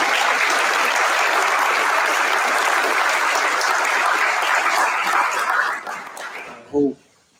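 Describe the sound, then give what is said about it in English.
A crowd gives loud, sustained applause, with dense, steady clapping that holds for about six seconds and then fades away. “So just clap it up”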